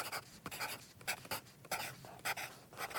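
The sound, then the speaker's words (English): Pencil scratching on paper as someone writes a quick note: a run of short, irregular scratchy strokes with brief pauses between them, clear and fairly close-sounding, with no talking. “Let me write that down real quick.”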